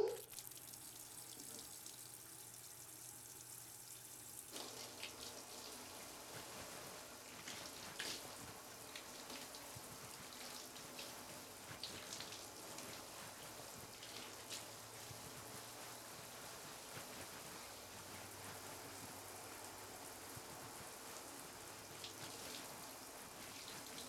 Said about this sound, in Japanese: これから流していきますけど、泡が染みちゃうので目を閉じてなきゃダメですよ。はい、じゃあ流しますね。